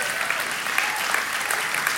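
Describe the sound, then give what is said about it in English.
A church audience claps during a sermon, a dense, steady patter of many hands that runs evenly through the whole stretch without a break. “You clapping worse than I'm preaching.”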